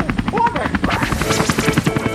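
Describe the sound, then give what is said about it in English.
A helicopter in flight, its rotor giving a rapid, regular thumping pulse over a loud engine whine that runs steadily throughout. “He is steering the helicopter right now.”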